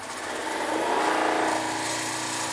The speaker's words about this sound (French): La pompe primaire que je viens de démarrer qui va pomper jusqu'à l'arrière de cette deuxième pompe jusqu'à 10 puissance moins 2 millibars.